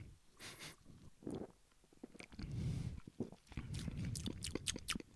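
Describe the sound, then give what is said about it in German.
Someone takes a sip of a drink, with a few soft, wet slurping and mouth noises at low volume between quiet pauses. “Ich probier mal. Nehmen wir doch mal ein Schlückchen.”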